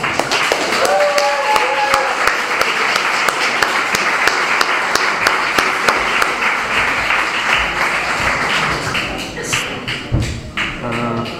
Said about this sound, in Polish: Brawo, przytajmy go brawami.